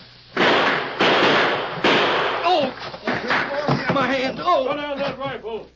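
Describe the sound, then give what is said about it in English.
Gunfire in a shootout with outlaws, rifles and a six-gun: three loud, sharp cracks in quick succession, followed by men's voices talking. “Keep shooting.”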